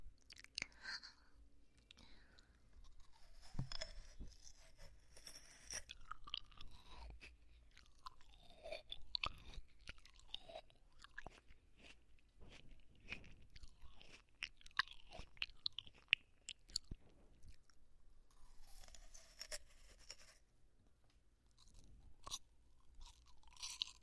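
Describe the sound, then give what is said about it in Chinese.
Faint crunchy chewing of something being tasted, with continuous bites, soft crunches and wet mouth sounds running steadily throughout. “我先帮你尝尝啊，这个看起来好吃。 我先帮你尝一尝，如果甜呢，就给你吃哦。”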